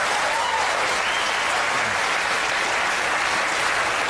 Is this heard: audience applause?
yes